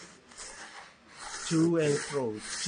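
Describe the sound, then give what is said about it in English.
Wood rubbed by hand with sandpaper in to-and-fro strokes, giving a soft, gritty rasp that swells in the second half, with a voice briefly sounding over it. “I wanted him to let me carve. I don't get to carve, I just get to sandpaper. So you take your sandpaper here? Yes. Just”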